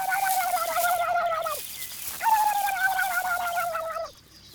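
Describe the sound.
A bird's answering call, a rapid, pulsing cooing trill that comes in two bursts. Each burst drifts gently downward in pitch, and no voices are heard.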